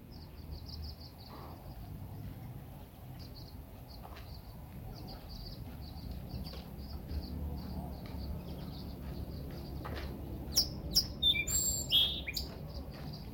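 Bird song: bright, high chirps repeat steadily throughout over a low, steady background rumble, with a cluster of louder, sharper calls near the end.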